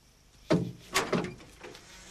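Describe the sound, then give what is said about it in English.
A metal catch is lifted and a horse trailer door is opened, giving a few sharp knocks and clunks in quick succession. A softer thud follows, with near silence before and after. “lifts a metal catch and opens the door of the horse trailer”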